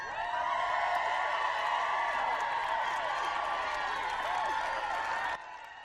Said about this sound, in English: That was your group of Bacchic revelers, the wild women of the mountains.